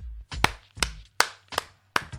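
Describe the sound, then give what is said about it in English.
Five sharp hand claps, evenly spaced about 0.4 seconds apart, ring out alone against silence. Each clap has a brief softer touch just before the main smack. “That is the sound of me clapping at your demise, because Jason, you should know better than that.”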